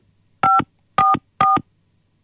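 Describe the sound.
Three crisp telephone keypad tones sound as a number is dialed on a phone. The beeps are evenly spaced, loud and alone against near silence.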